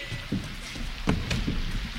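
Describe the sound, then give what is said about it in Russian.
Rain falls in a steady, even patter with a few slightly louder drops standing out from the wash of noise. “Пройдемте в трактир и переждем дождь.”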